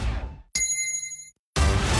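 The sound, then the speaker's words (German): A single bright, gong-like chime marks a drinking break: one sharp strike whose ringing tonal partials hold briefly and then fade, set between louder, denser passages of sound. “Trinkpause! Der Gong. Hydration Break.”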